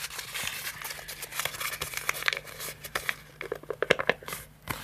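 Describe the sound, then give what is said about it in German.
Paper rustles and crinkles as a note is pulled out, a dense run of soft, irregular crackles and crisp scrapes that grow somewhat sharper toward the end. “Ich hole hier mal einen Zettel raus.”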